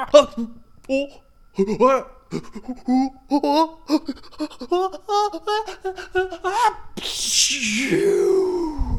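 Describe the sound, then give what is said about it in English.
A voice imitates a giant's pepper-induced sneeze: a long run of halting, voiced breaths builds up, then bursts into one loud, breathy blast that trails off with a falling tone. “and he did a giant sneeze because the pepper made him want to sneeze really bad.”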